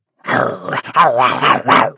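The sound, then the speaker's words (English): A neighbor's dog barks in a backyard at night. A few loud, rough barks with a growling edge come in quick succession over about two seconds. “That's their dog.”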